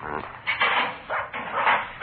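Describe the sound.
A dog barks at a house, several muffled, bright barks in irregular bursts, some short and some drawn out, with no talk over them.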